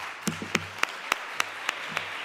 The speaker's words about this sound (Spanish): Este es el aplauso que recibió Dolores Vázquez el 27 de abril en el Ministerio de Igualdad.